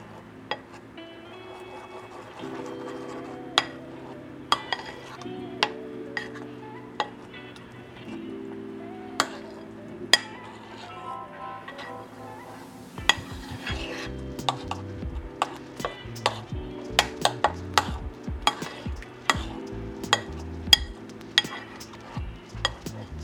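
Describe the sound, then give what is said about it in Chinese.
Pancake batter for a Korean seafood pancake is stirred in a bowl, with many light clinks and taps of the utensil against the bowl, irregular and quicker in the second half. “好，然后大家搅拌的时候呢，记得不要太用力哦，太用力的话就很容易把空气打进去。”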